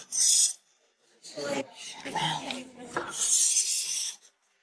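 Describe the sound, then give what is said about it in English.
Rasping scrapes of a utensil working overly thick cake batter out into a cup, a few strokes of uneven length separated by brief pauses, with no one talking. “Batter's too thick. I learned this technique to save time, but I'm having so much trouble getting the cake mix out into the cup.”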